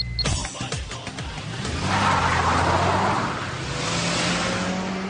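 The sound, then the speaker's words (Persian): A car pulls away from outside a coffee shop: a few sharp clicks at the start give way to a loud engine revving and accelerating, a broad surging roar that swells and holds as the car drives off. “سوار ماشین میشه ضبط ماشین رو روشن میکنه و حرکت میکنه”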